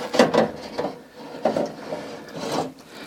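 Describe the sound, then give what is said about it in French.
Scraping and knocking as a small guide piece is pried out during a repair, heard as a few short, rough, woody bursts spaced apart with quieter rubbing between them. “Alors, je vais retirer le petit guide qui est là. Toc.”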